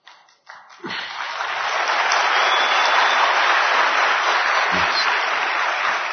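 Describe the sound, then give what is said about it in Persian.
Audience applause breaks out after a moment of talk and swells quickly into dense, steady clapping that stays loud and even until the end. “این الان برای حاج آقا دست زدید یا برای من دست زدید؟”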